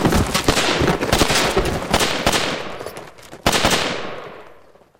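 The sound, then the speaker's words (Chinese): Rapid gunfire: a dense, sustained rattle of shots, a brief dip, then a second loud burst that fades out toward the end. “再不站住，老子开枪了啊！”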